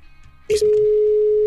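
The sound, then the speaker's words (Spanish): A telephone ring-back tone on an outgoing call: a brief click, then one steady, low, loud tone holding for about a second before stopping. “Ok, bueno, ya está marcando.”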